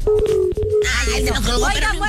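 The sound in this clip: Telephone tones sound as an incoming call connects: a few short, steady electronic beeps in the first second, followed by a voice talking over the line.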